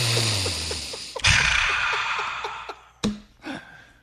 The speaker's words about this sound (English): Are you smelling with that deep little inhale right there? Are you smelling any Sauvage?